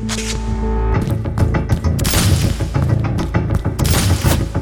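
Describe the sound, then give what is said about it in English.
Booms and bursts from high-grade ordnance fire pile up in a dense, loud barrage, with many heavy thuds and sharp blasts overlapping almost without pause. “The fact that they're using such high-grade ordnance”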